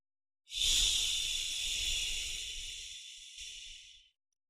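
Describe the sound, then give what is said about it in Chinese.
A slow exhale voiced as a hissing 'xi' sound during a breathing exercise. A smooth, continuous airy hiss stands alone for about three and a half seconds, easing slightly in loudness before stopping abruptly. “嘴里要发出吸的发音。 呼的时候要发吸的音。 哎，就是缓慢的呼气”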